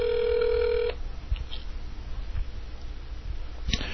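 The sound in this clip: A telephone ringback tone plays during an outgoing call: one steady, buzzing burst lasting just under a second, then faint line hiss with a brief click near the end.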